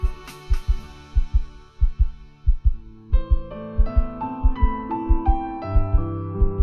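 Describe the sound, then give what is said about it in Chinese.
Heartbeat sound effect in an audio drama: steady, low, thudding beats that grow quicker, with sustained musical tones entering partway through beneath the pulse. “心跳骤然加快”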